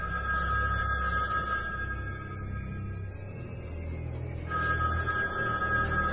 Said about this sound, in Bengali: প্রতি শনিবারই রাত 12টায় ফোনের ঘন্টা বেজে ওঠে